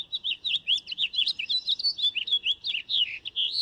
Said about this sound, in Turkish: O ses bülbülün en tipik seslerinden biri.